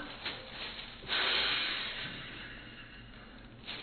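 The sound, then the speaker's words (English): A breath blown into a plastic bag makes one soft, breathy rush that swells suddenly and slowly fades over about a second, with faint puffs before and after. “this kind of bag can be used for several things. But one I just use it for is to capture visually a breath. So if I go,”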